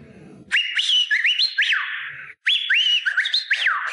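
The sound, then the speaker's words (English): A cartoon robot character whistles a bright tune of sliding, rising and falling notes. It comes in two phrases split by a brief pause, clear and alone. “So that's why when you hear Bender whistle,”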